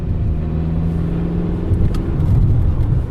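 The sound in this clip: A car sets off on a 270-kilometre drive, its engine a steady low rumble that thickens and grows slightly louder partway through, with no voices.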